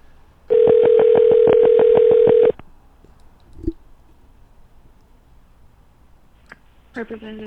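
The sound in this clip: A telephone call is dialed. A loud, steady dial tone carries a rapid series of pulsing keypad beeps for about two seconds, followed by faint clicks and quiet line noise.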